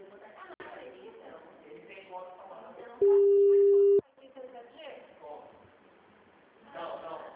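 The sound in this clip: A telephone busy tone after a dropped call: a single steady, mid-pitched tone lasting about a second, clearly louder than the quiet conversation around it.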